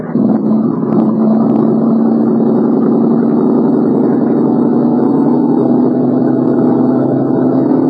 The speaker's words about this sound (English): Rev it up.